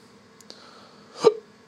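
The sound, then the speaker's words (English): A single hiccup, a short, sharp vocal gulp heard alone and fairly quiet, with a couple of faint clicks just before it. “I got the fucking hiccups, dude. I hate the hiccups.”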